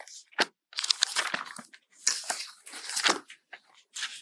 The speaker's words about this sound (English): I put some post-it notes in my Tanakh so I find things easily not have to waste your time flipping pages, but I'm flipping pages.